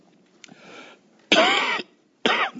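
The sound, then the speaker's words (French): Coughing from someone with lingering rhinitis, pharyngitis, laryngitis and flu: a faint first cough, then two loud, harsh coughs separated by a short silence. “Pardon si je tousse pendant cette séance, mais j'ai encore, comme tout ORL qui se respecte, les restes d'une rhinite, d'une pharyngite, d'une laryngite et d'une grippe.”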